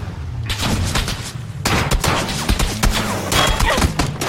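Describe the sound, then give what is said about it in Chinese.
M16 rifle gunfire from a video game comes as dense, rapid bursts of sharp cracks and thuds. The loud volleys pile up with a brief lull near the start, and no voices are heard. “这 M16一枪把我就爆头了”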